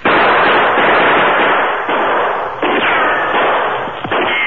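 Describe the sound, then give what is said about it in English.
A gunshot rings out by a gully lined with trees and large boulders. The sound is a loud, rough, sustained blast of noise with a muffled top end that continues for several seconds, and no voices are heard. “The three men ran in crouching position to the safety of the trees just as a shot rang out.”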